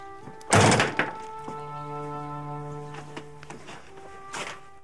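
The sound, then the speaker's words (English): A door is shut with a single dull, heavy thud. Low sustained tones hold steadily underneath and carry on faintly after the impact. “The boy slowly and almost reluctantly follows him in and shuts the door behind him.”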